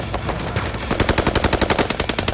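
Automatic gunfire from a movie scene rattles out as loud, rapid, evenly spaced bursts that sharpen into a clear rhythmic stream after a denser, noisier opening.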